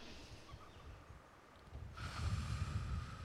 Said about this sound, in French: Bon, je vais commencer par une inspiration. Je vais inspirer un peu.